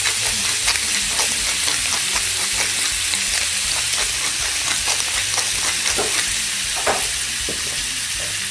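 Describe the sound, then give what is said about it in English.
Steak medallions seasoned with smoked paprika, Old Bay and pepper sizzle in a pan with a loud, steady frying hiss, broken by occasional scraping and clicking as the meat is stirred. “Back with the meat being cooked pretty much about halfway.”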